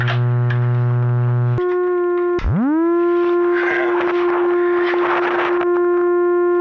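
A buzzy synthesizer tone shaped by its filter and pitch holds low and steady, jumps up a step, then dips briefly and swoops back up into a sustained, brighter drone with shifting, noisy overtones.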